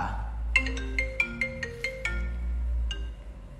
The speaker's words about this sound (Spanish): ¡Ojo, chicos, que tenemos una llamada!